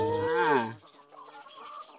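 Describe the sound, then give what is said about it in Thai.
Chickens clucking around visitors feeding them on an egg farm: a short, moderately loud harmonic call followed by softer, fainter clucking. “ถ้ามาฟาร์มเป็ดไข่ไก่ไข่อารมณ์ดีเนี่ยน้องๆก็สามารถที่จะมาให้อาหารน้องไก่ได้น้องไก่ก็จะมาล้อมเราแบบนี้เลยนะครับ”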